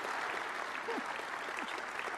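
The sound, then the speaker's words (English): Applause from an audience at an agriculture panel event welcoming a panelist: many hands clap in a steady, fairly soft stream that stays even from start to finish. “Nice round of applause for Wade Cowan”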